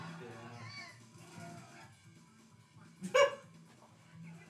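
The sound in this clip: A dog lets out a single short, sharp bark that rises briefly above people talking throughout.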